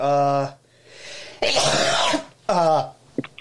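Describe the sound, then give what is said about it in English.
A sneeze, heard as a loud, harsh burst of breath between strained, throaty voiced sounds, followed by a few faint short clicks. “that was a sneeze”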